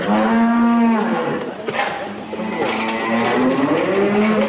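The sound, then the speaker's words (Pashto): Cattle on a small dairy cow farm in Kandahar mooing loudly, with a long, steady moo at the start, rougher overlapping calls in the middle, and another drawn-out moo toward the end. “په کندهار کې د غواګانو یو کوچنی فارم هغه شیدې غاځي چې کله بندي کله ارزاني”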